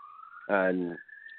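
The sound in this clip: Emergency sirens sound behind a speaker as a steady, high wailing tone that runs through the whole clip, briefly overlaid by a voice talking in the middle.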